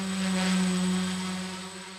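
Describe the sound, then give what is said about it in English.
A Hoverfly-made drone, an entry-level model from a Central Florida manufacturer, gives off a steady, loud buzzing hum with a strong low drone and bright overtones. The tone stays even and unbroken throughout, like a swarm of bees. “In the air, it looks like a toy plane Darth Vader might fly and sounds like a swarm of bees.”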